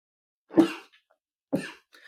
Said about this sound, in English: Yep, that was a sneeze and not a cough.